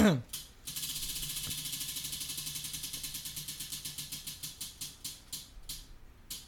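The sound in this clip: A Beanboozled game spinner wheel whirs round in a rapid string of ratcheting clicks that gradually slow and spread apart as the wheel winds down, ending in a few widely spaced ticks.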